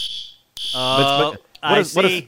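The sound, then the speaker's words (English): A pulled fire alarm sounding a steady, high electronic tone that runs on under a person's loud, excited voice. “pulled the fire alarm.”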